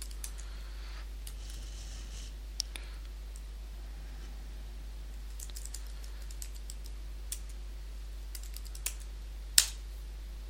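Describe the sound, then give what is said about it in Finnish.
Typing a command on a computer keyboard connected to a server: sparse, faint key clicks with a few sharper taps and one louder click near the end, over a steady low hum. “Minulla on tässä yhteys tuonne palvelimelle, jos mä kirjoitan tähän nyt tuon komennon.”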